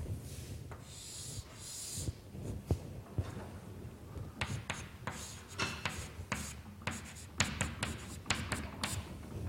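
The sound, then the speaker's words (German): Scratchy strokes and light taps of writing on a board during a physics lecture on Green's functions, coming in uneven bursts with short pauses between strings of strokes. “Ich schreibe es einfach nochmal ab.”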